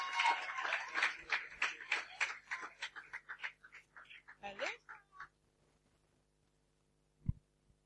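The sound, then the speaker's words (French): Applause and cheering from a church audience at a morning worship service, welcoming a man who comes forward to give his testimony. Dense clapping mixed with voices swells, then thins out and stops after about five seconds, followed by silence and one brief low thump. “Est-ce que tu peux m'aider à acclamer et recevoir le frère Charles ce matin qui a un merveilleux témoignage? Est-ce qu'on peut acclamer ce matin?”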